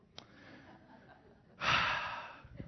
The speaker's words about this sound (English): Deep breath. We'll need it.